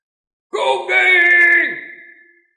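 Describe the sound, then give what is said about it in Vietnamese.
A human voice imitates the thunderous roar of a giant swelling to nearly five meters tall, a loud, harsh, drawn-out bellow of about two seconds that slides down in pitch and fades out. “Hoàng Tiên Đại Điệu phát ra tiếng gầm kinh trời.”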